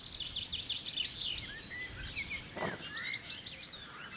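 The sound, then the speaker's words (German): A male penduline tit sings to attract females to inspect his nest, giving thin, high, rapidly repeated notes in two separate bursts with a short pause between them, fairly faint over a low outdoor hiss. “Zwischendurch singt der Meisenmann Weibchen herbei, die das Nest inspizieren sollen.”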